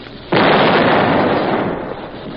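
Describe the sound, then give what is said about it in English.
A single artillery shell fired from a gun: a sudden loud blast cuts in sharply, then becomes a broad roaring rumble that slowly fades over the next two seconds. “Sarge, it fell short. Must have been a defective shell. Reload. Right. All set. Ready. Fire.”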